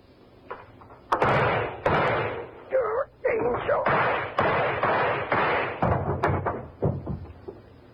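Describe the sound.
Gunshots from a handgun fired repeatedly until the gun is empty: several loud, sharp reports spaced roughly a second apart, each trailing off in a short decaying tail.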